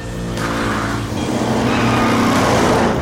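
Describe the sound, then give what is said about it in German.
A runaway observatory vehicle with a turbo engine roars along, not uphill, in a loud, continuous engine drone. Rough tire and skidding noise runs throughout, with no voices. “Dank ihres Turbomotors war die Sternwarte mittlerweile ein ganzes Stück weit weg. Allerdings fuhr sie nicht bergauf.”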